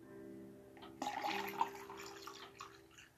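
Liquid poured back and forth between containers to mix drinks: a faint, brief splashing trickle that rises and then thins out, with no talking.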